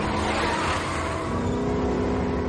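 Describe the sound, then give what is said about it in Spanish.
A car engine roars as the car accelerates in reverse while held back by a cable that pulls taut, in an action movie scene; a loud, sustained, throaty rev that holds nearly steady in pitch throughout. “Roman da marcha atrás. El cable se tensa. Roma acelera sin éxito.”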